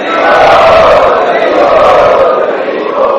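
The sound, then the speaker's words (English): A temple audience at Radha Gopinath Temple chants loudly in unison in thanks, a sustained roar of many voices that holds steady and strong throughout. “So let us thank Yugavatar Prabhu for his wonderful presentation by 3 times loudly chanting.”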